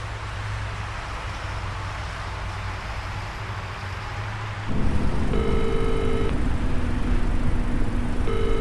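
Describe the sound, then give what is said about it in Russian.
A truck drives along a highway with a steady, loud rumble of engine and road noise. Partway through, the sound grows louder and adds a low tonal hum. “Грузовик Глеба едет по трассе.”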